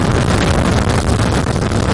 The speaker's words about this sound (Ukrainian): Попри свої чималі розміри, «Хаймерс» легко набирає швидкість, і це ще пересічною місцевістю.